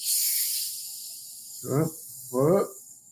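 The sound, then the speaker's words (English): A bottle of Topo Chico sparkling mineral water opens with a bright hiss that fades out, followed by two short voiced sounds. “I'm going to be drinking a Topo Chico.”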